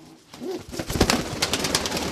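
Pigeons cooing in a modern, metal-clad pigeon loft, soft low coos amid a continuous busy rustle of birds, steady throughout.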